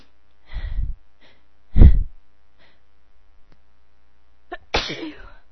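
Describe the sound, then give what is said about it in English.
A person sneezes, set off by air freshener. Short, noisy bursts of breath stand out against quiet, with no talk. “it makes me sneeze so bad.”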